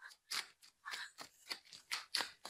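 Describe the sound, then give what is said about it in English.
Cards being handled for ASMR produce many soft, crisp rustles and taps that come in an uneven rhythm and stay fairly quiet, with no talk. “Time for the card ASMR.”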